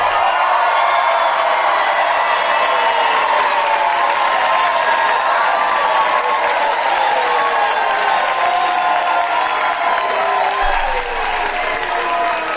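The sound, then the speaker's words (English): Audience clapping and cheering, a steady, loud wash of applause that holds evenly across the whole stretch with a few voices rising within it. “What are y'all doing? Are y'all clapping? Oh, because she got back from the restroom or something?”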